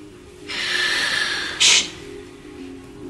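A person breathes noisily on purpose, with a long airy hissing breath followed by a short, sharp, louder huff, then near quiet, and no words.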